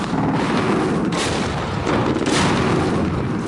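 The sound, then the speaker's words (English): Artillery fire echoes across a valley during combat with Taliban fighters near a village: a few heavy booms over a continuous loud rumbling roar, with no talking. “The sound of artillery fire engulfs the valley.”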